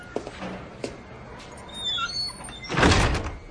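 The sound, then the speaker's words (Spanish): A key jiggles in the lock of an apartment building's street door, then the door opens: a few light, scattered metallic clicks and scrapes, followed near the end by a louder, broad swoosh and thud as the door swings open. “Estefan forcejea unos instantes con la cerradura y entra en el portal de Sharon.”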